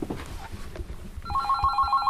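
A telephone rings with a repeating electronic trilling tone that begins partway through, after a stretch of low rustling, then continues steadily and fairly loud.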